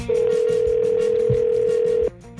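Ringback tone of an outgoing phone call: one steady, low-pitched, unbroken tone holds for about two seconds, then cuts off abruptly, leaving a faint hum.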